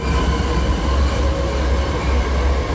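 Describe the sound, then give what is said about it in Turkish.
A train runs on a new high-speed rail line in Turkey, making a steady, dense rumble and rush that stays loud and even throughout, with no distinct wheel clacks standing out. “Çerkezköy Kapıkule hızlı tren hattında ilk yolculuk heyecanı yaşandı.”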